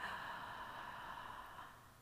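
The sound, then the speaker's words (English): A slow, deep breath is drawn in during a guided relaxation. The soft, airy hiss is faint and steady and tapers off toward the end. “And breathe in with me all the cares and worries of today.”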